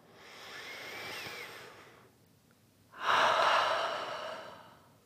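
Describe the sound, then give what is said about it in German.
Deep breath in and out during a guided relaxation exercise: a long, soft airy inhale over about two seconds, a brief pause, then a louder, fuller exhale that slowly fades. “Also, einmal tief ein- und ausatmen.”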